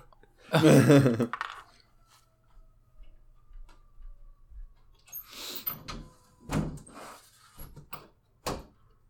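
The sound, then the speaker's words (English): A window is pulled shut with a quiet scraping slide, followed by several sharp clicks and knocks spaced a moment apart. “Hold on, I'm going to close my window.”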